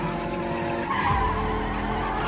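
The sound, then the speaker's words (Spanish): Car tires skid on asphalt in a loud, continuous screech, with engine roar underneath that holds steady and swells slightly partway through. “Los neumáticos friccionan contra el asfalto.”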